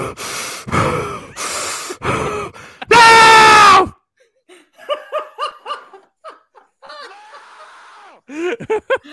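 Very heavy breathing: a few loud, rasping breaths, then a long strained voiced gasp, followed by quieter choppy gasps and snicker-like sounds.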